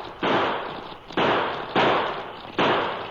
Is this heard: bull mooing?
no